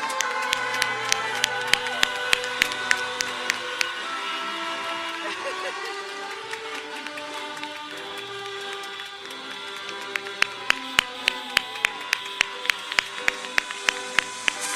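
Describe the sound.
A crowd cheers and applauds the class of 2020 at a high school graduation ceremony for a School of Innovation, with many sharp individual claps standing out at the start and again near the end.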